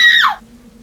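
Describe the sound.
A woman screams in fear, stranded in a car that won't start while wolves howl nearby: one short, loud, shrill cry that drops sharply in pitch and cuts off, leaving a faint low hum.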